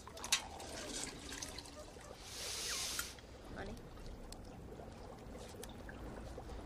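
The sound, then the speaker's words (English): Water in a cooking pot where shoes are being boiled, with a brief louder hissing, splashing burst in the middle over a faint, steady liquid background and low murmuring voices. “Is he boiling shoes?”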